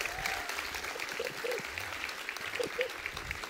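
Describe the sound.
Church audience applauding to welcome a speaker to the front: steady, dense clapping that holds at an even level from start to finish, fairly quiet.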